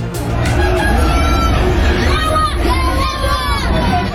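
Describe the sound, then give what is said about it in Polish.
Polish fans in Florida shout and cheer to greet footballer Robert Lewandowski. A loud, dense babble of voices rises into higher, excited calls. “Jak słychać, na Roberta Lewandowskiego czekali jego fani. Było trochę osób w biało-czerwonych barwach, to głównie Polonia z Florydy. Witamy w Ameryce. Niektórzy przywitali go takimi okrzykami lub napisami na flagach.”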